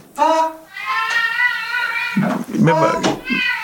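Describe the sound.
A cat meows to be let in, giving several drawn-out, fairly loud meows one after another. The meows rise and fall in pitch.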